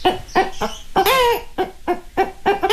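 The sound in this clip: A voice imitates a clucking hen in a mimicry performance using circular breathing: a rapid, rhythmic run of many short, nasal clucks, with one longer, wavering squawk in the middle.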